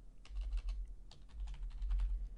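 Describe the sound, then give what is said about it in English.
Rapid keystrokes on a computer keyboard, clattering quietly in uneven bursts with short pauses between runs of typing. “Okay, it's not letting me, is there a character limit? Why can't I type in Blue Lives Matter? I guess too many letters.”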